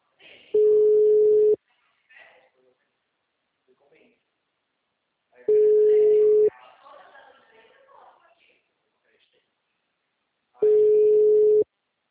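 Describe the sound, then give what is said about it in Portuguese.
A telephone line tone sounds while a call is placed: three steady, one-second beeps of a single mid-pitched tone, spaced about five seconds apart, with faint voices in the quiet gaps between them. “Oh, preciso ligar aqui, mano.”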